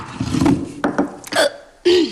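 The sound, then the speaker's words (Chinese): Voiced burps from someone who has eaten too much: a few short, gulping belches with a wavering tone, loud and separated by brief pauses. “还没吃饱啊？打饿嗝呢？ 这次是饱嗝，一次也不能吃太饱”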